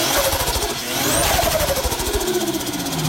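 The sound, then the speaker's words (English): A turbocharged car engine runs with a rough pulsing drone, a faint whistle rising near one second, then the engine note gradually sagging lower. “I'm pretty sure that's the same thing, but that's got a turbo, hasn't it? The word sequential's coming to my mind.”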